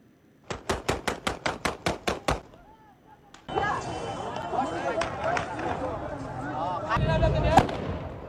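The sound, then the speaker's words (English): Gunshots fired outside an airport in Afghanistan: a rapid, evenly spaced burst of loud, sharp cracks, followed by a noisy crowd with raised voices and more commotion. “Shooting people right there. That last shot was at someone trying to climb the wall.”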